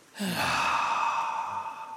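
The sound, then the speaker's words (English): A deep breath drawn and released in one long, airy sigh that begins suddenly and stays fairly loud and steady to the end, with no talking over it. “One more time together. Okay, one more time. Breathe in. Breathe out.”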